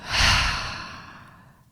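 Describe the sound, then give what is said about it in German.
A deep breath in and out taken during a guided breathing exercise: one long, airy breathy rush that swells quickly, then fades slowly over about a second and a half, with no talking. “Zum Abschluss atme noch einmal ganz tief ein und aus.”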